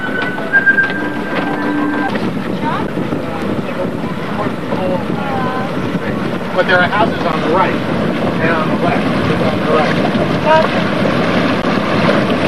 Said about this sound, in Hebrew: קיבלנו את השייט, אנחנו עדיין על מנוע.